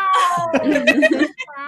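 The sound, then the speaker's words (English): A person imitates a cat crying outside a door with a drawn-out, plaintive vocal meow, followed by brief laughter. “if Sir Pounce hears me but can't get to me, he'll just cry outside the door and then I won't be able to concentrate because it'll break my heart. And he'll just go, wow,”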